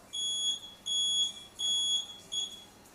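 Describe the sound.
Beeping from an autonomous bus stop information system whose sounder is taped over: four steady, high-pitched electronic tones at even intervals, the last one shorter.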